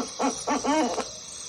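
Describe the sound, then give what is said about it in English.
Two owls trade a few short, wavering hoots in quick succession. A thin, steady insect buzz runs underneath. “So we hear these two owls getting closer and closer, and then suddenly you hear that”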